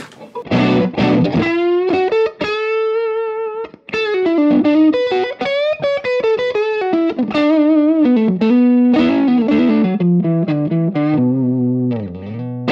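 Electric guitar with a bluesy, dirty-clean tone and the treble turned up plays a continuous lead line of quick, bright notes, lightly overdriven with a chorus-like shimmer.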